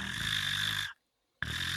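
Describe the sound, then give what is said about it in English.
A voice imitates a clouded leopard snoring with a rough, sustained, raspy breath that stops for a moment of silence and then starts again. “Where a purr is like they're breathing while they do it. It's all that long. So I think the animal, I think the cat was snoring.”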